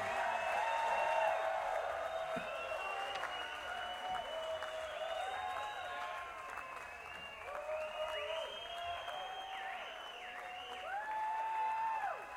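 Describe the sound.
A festival audience applauds the band Great American Taxi with a sustained, steady roar of clapping and scattered cheers that holds throughout.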